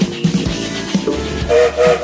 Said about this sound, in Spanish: Ya está saliendo el tren, así que súbanse.